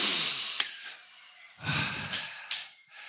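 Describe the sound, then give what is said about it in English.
A group of people draws a deep breath together, heard as soft, breathy rushes of air that swell and fade a few times, with no talking. “Can we all take a deep breath real quick? Just super deep.”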